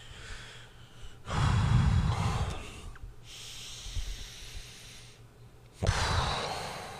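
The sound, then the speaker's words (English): A person imitates heavy breathing with two loud, drawn-out, rough breaths and quieter breathy sound between them, no words spoken. “like rubbing his forehead and like breathing heavy.”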